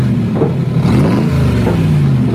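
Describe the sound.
A motorbike engine revs loudly and steadily, its pitch climbing and dropping across a few throttle pulls. No voices are heard.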